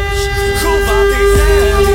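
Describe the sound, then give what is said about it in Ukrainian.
An air raid all-clear siren sounds in Lviv as a loud, steady, unwavering tone that holds at one pitch throughout, with rumbling noise underneath. “Увага! Громадяни! Відбій повітряної тривоги!”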